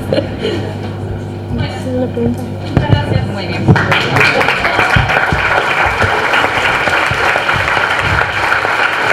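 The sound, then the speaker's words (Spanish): Audience applause at a panel on local experiences, greeting the guests from Chaco: talk gives way to loud, dense, sustained clapping that continues steadily to the end. “un fuerte aplauso para los compañeros de Chaco”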